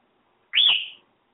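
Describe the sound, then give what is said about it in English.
A single bird call: one loud whistled note lasting about half a second. It rises briefly, holds steady, then fades out, heard alone in otherwise quiet surroundings. “Bird.”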